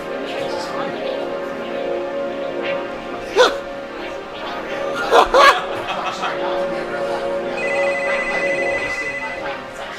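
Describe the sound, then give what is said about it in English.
A Verizon telephone time-announcement service with its time tone: a single steady, high electronic beep holds for a couple of seconds near the end, after a stretch of talking voices on the line. “At the tone, Verizon time will be 4:55.”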